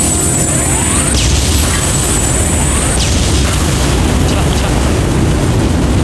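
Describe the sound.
Explosion blasts from a video game involving a giant battleship, heard as a dense, loud, continuous rumbling roar with a few whooshing sweeps running through it.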